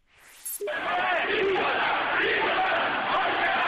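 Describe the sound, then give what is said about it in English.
A crowd at massive protests in Tehran, Iran, roars continuously in a dense wall of shouting voices, starting after a brief noise at the very beginning. “That's the sound of massive protests in Tehran, the capital of Iran.”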